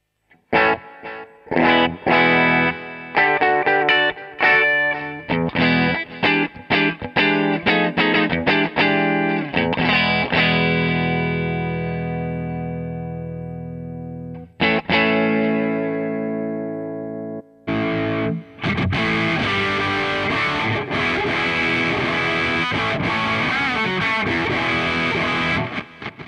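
Heavily distorted electric guitar played through a mixing console's built-in insert effects: choppy, clipped chord stabs give way to long, ringing sustained chords, then one more struck chord and a thick, dense wall of fuzzy distortion.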